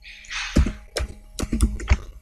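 Typing on a computer keyboard, heard as a few sharp, irregular key clicks in quick bursts after a brief soft hiss, with no talking.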